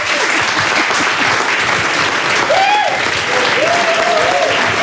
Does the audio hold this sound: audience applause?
yes